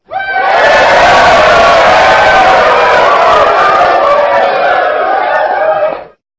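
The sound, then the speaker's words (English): An audience cheers and shouts in a loud, sustained roar of many voices that swells quickly, holds for about five seconds and then cuts off abruptly. “Now, can I get an applause?”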